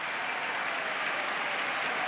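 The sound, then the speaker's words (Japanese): Applause from a sumo arena audience after a fierce bout, a dense, steady wash of clapping that holds at an even level throughout, with no voices standing out. “激しい相撲に拍手が湧いている国技館”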